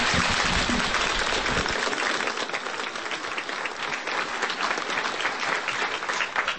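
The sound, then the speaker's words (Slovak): Applause from an audience welcoming the speaker at a religious gathering: dense, many-handed clapping that stays loud and steady for the whole stretch, with a low rumble under it at the start and no voices standing out. “Spoločne sa očami vítame, ale aj hlasovo i potleskom.”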